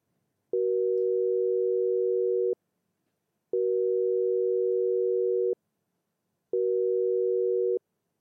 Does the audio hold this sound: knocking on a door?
no